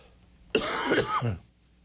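A person clears their throat with one short, rough, cough-like burst lasting about a second, standing alone against quiet background.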